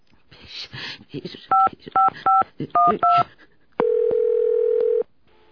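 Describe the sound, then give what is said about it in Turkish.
A telephone number is dialed on a keypad: a voice speaks briefly, then a quick series of keypad tones, followed by one long, steady, loud line tone that stops abruptly. “Ama sabah bekleyemem, hemen arayacağım.”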